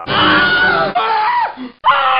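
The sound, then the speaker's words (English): A comedy show audience screams on cue in loud, high-pitched, sustained bursts, about three of them, with a brief silence before the last. “Scream if you want the comedy to go faster.”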